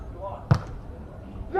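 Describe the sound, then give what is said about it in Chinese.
One sharp, hard smack of a volleyball struck on a powerful jump serve during a match. The single impact stands out briefly above quiet background, and a voice starts talking just after it. “大力的跳发，好发球。”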